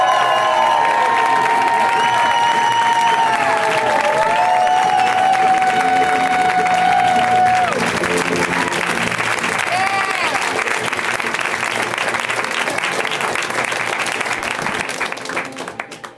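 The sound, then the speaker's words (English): Loud audience cheering and applause welcome a comedian to the stage, a sustained roar of clapping and shouts that stays strong for around fifteen seconds before tapering off at the end. “So guys, please, right now, let's hear it from Mr. Travis Rust. Give it up! Come on!”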